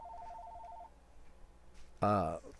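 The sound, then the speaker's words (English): Telephone ringing with an incoming call: a short run of rapid, pulsing electronic ring tones that stops. After a brief pause, a voice begins speaking. “I got a phone call. Just a minute. One sec.”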